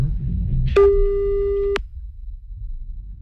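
A single steady telephone tone, heard while phoning a caller, holds a fixed mid pitch for about one second over a low background rumble, then cuts off abruptly.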